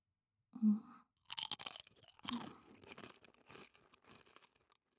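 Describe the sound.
Someone chews a snack with faint, crisp crunching bites that come in irregular bursts and fade to softer chewing and rustling toward the end.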